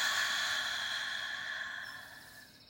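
A deep, sigh-like exhale releases a breath drawn in through the nose during a guided breathing exercise. It is faint and breathy, and it fades smoothly over nearly three seconds, with no talk over it.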